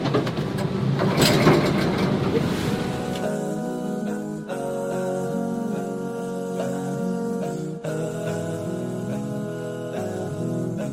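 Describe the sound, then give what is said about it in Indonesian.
A special boat's engine drones steadily with a low, rumbling hum and a strong humming tone. The first few seconds are rougher and noisier, then it settles into an even, loud throb. “Yuk, kita akan dengarkan suara perahu khusus.”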